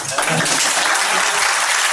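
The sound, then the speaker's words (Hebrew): Loud, dense applause for a person being praised, starting almost at once and holding steady and even throughout. “מחיאות כפיים לך, כן.”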